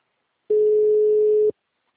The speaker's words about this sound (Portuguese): Agora tá chamando. É, mas eu vi aqui, não tá salvo.